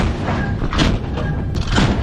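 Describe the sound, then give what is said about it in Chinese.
A naval gun on a warship fires at full rapid rate, giving a dense, continuous run of rumbling booms and thuds with little pause between rounds. “全速射击，放！”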